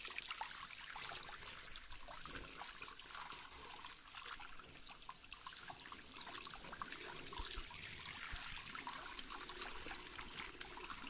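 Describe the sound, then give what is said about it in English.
Steady streaming water rinses shampoo out of a person's hair at a salon wash basin, a continuous soft hiss and patter that stays even throughout with no talking. “Just rinsing out all of that shampoo there.”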